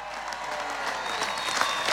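A large crowd gives dense, continuous applause to welcome home a footballer returning with the Sam Maguire Cup. The clapping is steady and rises slightly toward the end.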